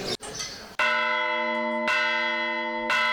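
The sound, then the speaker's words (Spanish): Hand-rung church bells sound a toque a vereda in La Rioja, with three clear strikes about a second apart whose bright, layered tones ring on and overlap, after a short stretch of noise. “Antes de que se pierdan estos sonidos, la Asociación de Campaneros de La Rioja los está recuperando, como este toque a vereda.”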